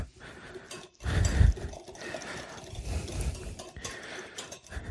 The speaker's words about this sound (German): Das Eigelb wird beim Rühren heller. Durch die eingearbeitete Luft vermute ich mal.